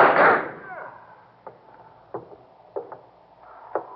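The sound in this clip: Gunshots ring out as armed men attack a house. A loud opening burst is followed by several sharp, short cracks at irregular intervals, with quiet gaps between them.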